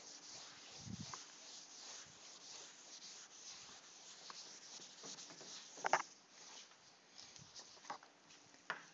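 Faint writing on a board during a physics lecture: soft, irregular scratching and rubbing, broken by a few slightly sharper taps, in a quiet room.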